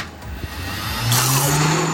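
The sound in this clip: An ice cream machine motor whirs steadily as it mixes blueberry sorbet made from sugar, water and a little lemon. The hum swells louder partway through and holds a steady low drone to the end.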